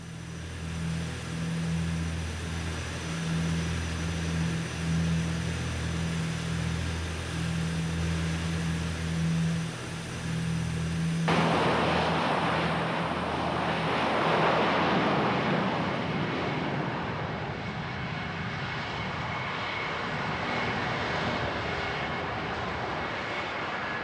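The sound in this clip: Test aircraft 002 roars with engine noise during a test flight. The drone is loud and continuous, with a humming tonal layer at first, then shifts midway to a broader, rushing roar that carries on to the end.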